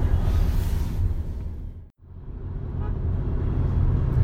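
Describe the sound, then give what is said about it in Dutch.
Car driving on a motorway past buses carrying football supporters, a steady low road rumble that drops to near silence for a moment midway, then rises back to full strength. “We rijden op de A12. We passeren net de supportersbussen van AZ.”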